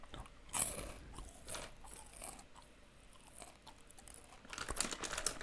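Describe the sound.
Crunchy bites and chewing of an airy, crisp chocolate-coated corn puff snack: faint, irregular crunches with a sharper bite near the start and denser crunching toward the end, with no talk.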